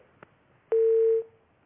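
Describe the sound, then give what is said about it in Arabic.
A phone tone sounds after a call is cut off: a faint click, then a single steady electronic tone lasting about half a second before it fades quickly into quiet. “طيب انقطع اتصالك يا أخت أم محمد، حاولي اتصال مرة أخرى.”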